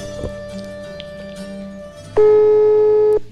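A telephone line tone sounds while a call is being placed. After a quiet, faintly noisy lead-in, a single steady, even tone starts abruptly and holds for about a second before cutting off.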